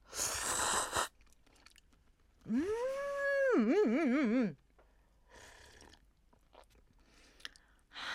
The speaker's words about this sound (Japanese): やっぱりそばやな。 そばからいきましょうかね。じゃあね、まずね、ではいただきます。